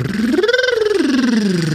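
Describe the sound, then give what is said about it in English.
A voice performs a tongue-trill exercise, a buzzing, rapidly fluttering rolled tone whose pitch rises and then falls back down, loud and alone. “Tongue trill, incidentally, is when you make a sound like this.”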